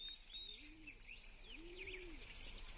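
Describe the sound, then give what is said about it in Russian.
Skylarks sing with faint, high chirping and tweeting notes that rise and fall over a steady soft background. “Запели жаворонки.”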